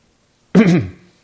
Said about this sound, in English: she clears her throat and pretends he doesn't see.